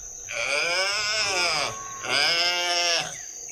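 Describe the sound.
A calf bleats on a dairy farm, giving two long, wavering, harmonic-rich cries. The first call is drawn out and the second is slightly shorter, both loud and clear, with a short pause between them.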